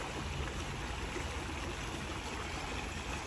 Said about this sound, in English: This is the sound of a cold stream, a nice cool brook